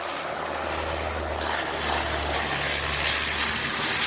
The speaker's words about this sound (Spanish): Pero de repente se produce el milagro de un sonido de un avión español.